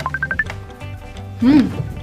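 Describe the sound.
Short electronic phone ringtone beeps for an incoming call: a few quick tones that step upward in pitch, followed by a brief voice.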